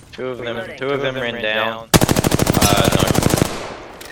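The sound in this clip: Rapid automatic gunfire from a video game battle: a voice speaks for about two seconds, then a loud, dense burst of fast, evenly spaced shots rattles on for around a second and a half before tailing off.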